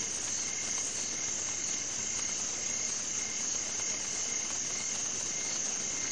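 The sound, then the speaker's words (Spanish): Crickets chirp steadily through the night, a faint, continuous, monotonous high trill without pauses or other sounds. “Se escucha el silencio de la noche, solo interrumpido por el monótono y repetitivo canto de los grillos.”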